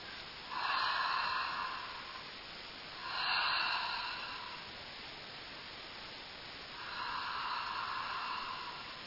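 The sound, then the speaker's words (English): Three slow, deep breaths taken together during a meditative prayer, each a long, soft, airy rush that swells and fades, with pauses between them over a steady background hiss. “So together, let's take those three deep breaths”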